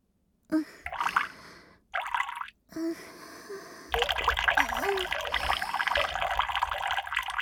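Liquid from a person urinating: a few short splashing bursts, then a steady continuous trickle and pour that keeps going to the end, moderately quiet.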